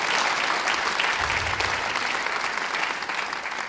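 Church audience applauding in praise of the Lord: dense, sustained clapping that holds steady throughout and eases slightly at the end.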